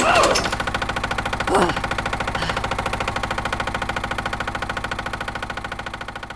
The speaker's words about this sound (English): You got the Ferris wheel working again.